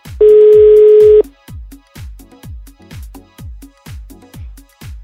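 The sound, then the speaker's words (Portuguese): Telephone tones while placing a call: a loud, steady tone lasting about a second, followed by a long string of short, evenly spaced low pulses. “Então nós vamos ligar pra Jéssica, trocar uma ideia com ela.”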